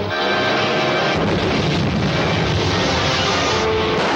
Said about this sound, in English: On target, steady as she goes. Firing ray gun.